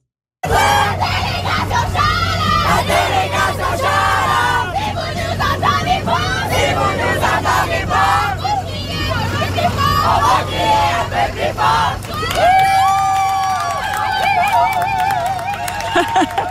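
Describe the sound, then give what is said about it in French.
Crowd noise at the opening of the 45th Jeux de l'Acadie in Edmundston, New Brunswick: a loud, continuous hubbub of many voices with scattered shouts, holding steady for the whole stretch. “On l'entend, c'est parti pour les Jeux de l'Acadie.”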